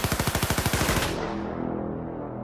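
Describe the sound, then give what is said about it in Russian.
Rapid burst of automatic rifle fire emptying a full magazine of small-calibre rounds: loud, evenly spaced shots for about a second, then a decaying ringing tail. “Я перевалился через окно внутрь здания, вскинул автомат. Тварь заскочила на подоконник, и я выпустил в нее весь магазин.”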